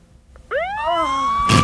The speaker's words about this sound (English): Now the ambulance is coming.